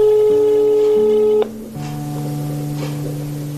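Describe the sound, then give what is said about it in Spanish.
Touch tones as a telephone number is dialed: loud, steady electronic tones step between pitches in quick succession, overlapping and sustained, with no voices. “si yo te dejara llamarle desde nuestro teléfono, ¿le llamarías?”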